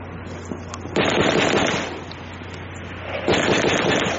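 Gunfire cracks out in two sudden bursts of sharp, crackling noise, the second a few seconds after the first. Each burst trails off into a rough, lingering rumble.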